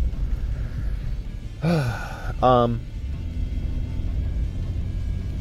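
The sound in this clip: Steady low engine and road rumble fills a moving car throughout, with two short voiced sounds breaking over it near the middle.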